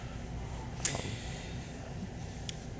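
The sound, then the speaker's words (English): A short, sharp sniff taken over a glass of beer, the fourth beer of a tasting, a Rausch beer, followed later by a fainter brief sniff, over a steady soft background hiss and with no talk. “we're not on video, so I just took a sniff of beer number 4 and got this immediate Cheshire Cat grin going.”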